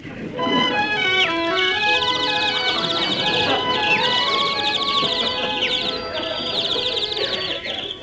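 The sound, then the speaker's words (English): Chirping birds in a forest, a sound effect of many bright trills and tweets running on without a break alongside lower tonal calls from other animals, loud and steady throughout. “Ah, here I am in the woods. And look at the animals following me. Oh, see the pretty birds. Hello, bird.”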